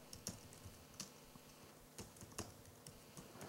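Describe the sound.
Computer keyboard typing as text is entered into a line-based text editor: a few sparse, irregular keystroke clicks, some sharper than others, heard alone and fairly faint.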